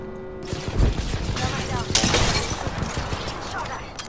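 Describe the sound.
Frag grenade explosion in the video game Apex Legends, a heavy low thump buried in dense, continuous gunfire and shattering clatter that stays loud throughout.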